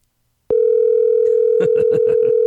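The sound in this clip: A telephone dial tone switches on abruptly and holds steady and loud as a call is dialed. After about a second, a quick run of short key taps joins it, with no voices.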